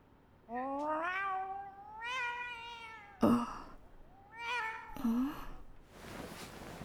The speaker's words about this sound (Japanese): 始まりは、そう、いつも私が可愛がっている猫の声だった。